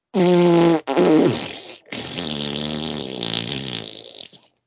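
Farting, three buzzy, rasping blasts in a row: two short bursts, then a long drawn-out one that wavers and slowly fades, loud and alone without talk.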